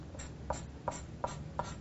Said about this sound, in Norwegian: så tegner jeg her en stige.